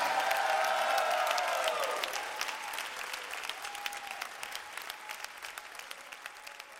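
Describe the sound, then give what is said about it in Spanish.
Loud applause from a church audience, a thick roar of clapping at first that gradually thins into scattered, individual claps as it fades over about seven seconds, with a faint sustained tone beneath the opening. “ese aplauso fuerte al Señor.”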